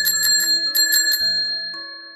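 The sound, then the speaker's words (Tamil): Bicycle bells on children's bikes ringing together in quick overlapping bursts: many bright metallic trills repeating in a steady pattern, then thinning out and fading toward the end. “ஒருத்தன் bell அடிச்சா எல்லா பசங்களும் டிங்கி டிங்கி டிங்கின்னு பெல்லிப்பாங்க”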